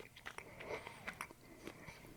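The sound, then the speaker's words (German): Faint, soft biting and chewing as a man bites into a piece of chocolate, with small crunches and moist mouth sounds in an irregular rhythm. “Er riecht weiter an der Schoko. Rein damit. Er ist drin, er beißt drauf.”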